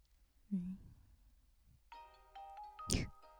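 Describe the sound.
Mobile phone ringtone for an incoming call, a short, bright electronic melody of stacked tones lasting about a second. A brief vocal sound comes earlier, and a sharp noisy burst cuts in near the end.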